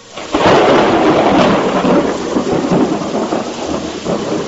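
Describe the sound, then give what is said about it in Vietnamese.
Heavy rain and thunder pound through a storm with gusting wind and big waves, a loud, dense, continuous roar that swells early and then rumbles on unbroken, with no voices. “Một luồng sáng cực lớn bùng lên, sóng to mưa lớn, gió quặn mây vần, sầm sập tuôn trào.”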